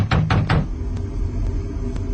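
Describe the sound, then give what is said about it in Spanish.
Three heavy, rapid knocks on a door, loud and booming, followed by a few faint, sharp ticks in the quiet that follows. “Los dramáticos golpes en la puerta paralizan a los aterrados sobrevivientes.”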